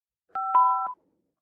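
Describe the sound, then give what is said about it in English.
A single telephone keypad tone dials 5 to accept a prepaid call from a state prison: one short, steady, two-pitch beep on an otherwise silent line. “To accept this call, say or dial 5 now.”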